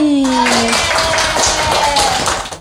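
Many hands clap for two student performers at a school event, a loud, dense patter of quick overlapping claps that holds steady before dropping away at the end.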